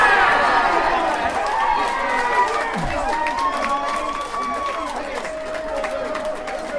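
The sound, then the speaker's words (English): Crowd cheering at a football match as Wimbledon score: a loud, sustained roar of many voices with shouts and whistles that holds steady throughout, with a voice talking over it. “Wow, the crowd sounds really creep up on you unawares.”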